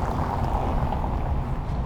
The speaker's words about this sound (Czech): Teďka jelo znovu auto zprava. Tak se musím rozeslechnout.